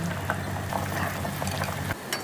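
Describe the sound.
Water boiling in a pot before salt is added for cooking shellfish, a continuous bubbling and hissing with small popping bursts that stays steady throughout and briefly dips near the end.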